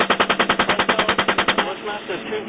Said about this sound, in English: Alright, we just engaged all 8 individuals. Yeah, we got 2 burst. We're still firing.